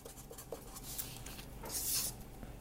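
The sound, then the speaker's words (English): A pen scratches across paper as someone draws. The soft, faint strokes rub and scrape in an irregular rhythm. “I'm drawing this. I hope this comes across on camera.”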